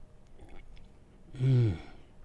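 A single slurping sip of a beverage from a mug: one short, fairly loud burst of about half a second that stands alone over a faint background.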